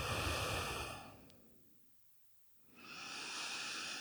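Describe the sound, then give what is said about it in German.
Slow breathing during a guided relaxation exercise: a soft, airy breath tapers off into a pause of near silence, then another breath swells back in. Quiet and without talk. “Dann nimm ein paar Atemzüge ein und aus.”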